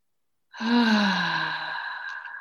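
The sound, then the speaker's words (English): A person takes one deep, calming breath, a long sigh-like exhale with a soft voiced tone. It is heard alone and lasts about two seconds, fading gradually. “Just even like hearing you take that deep breath calmed me. I was like, oh, that sounds so nice.”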